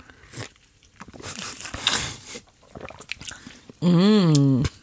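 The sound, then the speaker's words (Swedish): Ice and liquid rattling as an iced double espresso with milk is stirred with a wooden spoon, a rough crunchy swirl in the middle, followed by a wavering hummed voice. “Vi måste ju blanda på något vis. Och träsked. Så här har vi alltså dubbel espresso, is och mjölk.”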